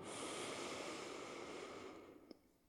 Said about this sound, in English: Let's take a real deep breath into that place.